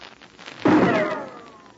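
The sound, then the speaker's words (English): A single rifle shot: one loud sudden crack that rings out with a long, slowly fading tail. “Did you hear that rifle shot?”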